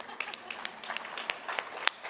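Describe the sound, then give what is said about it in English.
A church audience claps for its worship musicians. Scattered, irregular hand claps come quietly in many sharp little bursts. “You know, first service, clap for them. Let's clap.”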